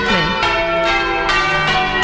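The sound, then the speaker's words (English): Church bells ringing on a Sunday morning in a town give loud, overlapping peals. Several fresh strikes land over a dense, sustained ringing tone. “we're going to come back and get rid of these blimmin' bells”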